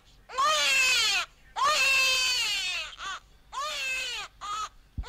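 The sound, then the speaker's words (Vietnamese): A newborn baby, moments earlier limp and blue, bursts into loud, piercing crying. Several wailing bursts each slide downward in pitch, separated by short gasping pauses, with shorter sobs near the end. “Đúng thật, đứa bé lúc nãy còn tím tái, bây giờ cựa mình, rồi nó khóc. Nó khóc như xé vải.”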